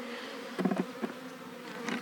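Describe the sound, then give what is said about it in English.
Honeybees buzz around a caged queen in several short, uneven bursts of droning wingbeats, moderately faint and heard without voices. “So the bees can get at her and feed her.”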